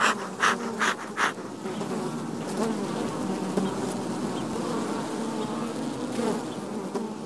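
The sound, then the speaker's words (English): Honeybees buzz over a frame lifted from an opened, healthy hive in early spring. A dense, steady drone holds throughout, with a few louder passes of single bees near the start. “so I'm going to pull a frame out, and it's covered with bees. These bees look good.”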